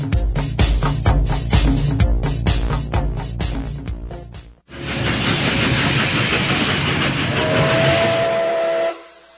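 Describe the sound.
A train carriage rolls on rails with a fast, rhythmic clacking. After a brief pause a loud, broad steam hiss takes over, joined near the end by a sustained whistle tone before it cuts off.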